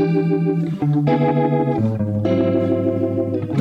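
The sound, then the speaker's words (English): An electric guitar runs through a Kemper rotary speaker effect, playing a few sustained, rich harmonic notes that step to new pitches with a swirling, wavering modulation and slight grit. “Yeah, so I put a rotary speaker on this. Nothing weird or fancy about that. Sounds like this.”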